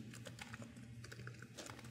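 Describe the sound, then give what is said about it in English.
Typing on a computer keyboard while entering a PowerShell command: many quick, irregular key clicks, faint and steady, with no voices. “you can get the application upgrade by looking at PowerShell and typing Service Fabric application upgrade”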